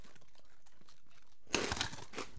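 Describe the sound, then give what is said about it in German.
Crunching and crinkling from someone eating nuts: a short burst of crisp, rustling crunches starts about halfway through, after near silence, and stays moderately loud with several small peaks. “Ich esse hier Nüsse.”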